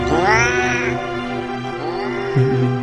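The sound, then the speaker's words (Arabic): A hairless cat meows in long, wavering cries: a loud drawn-out one at the start, a second softer one later, then a brief lower sound at the end. “وتحت رجله كان في قطة عمالة تتمسح في رجله، لكنها مش قطة طبيعية، قطة زي ما تكون مسلوخة أو شعرها كله متشال.”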